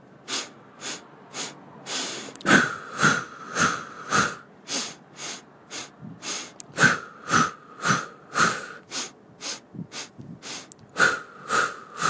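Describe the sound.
A breathing exercise with short, sharp inhales through the nose and exhales out the mouth, repeated as many quick, loud puffs in a steady rhythm for about twelve seconds, with no talking.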